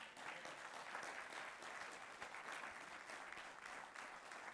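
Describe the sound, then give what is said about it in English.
A church audience claps hands in praise: dense, sustained applause at a steady level throughout, with no distinct voices standing out. “Give the Lord a hand clap of praise.”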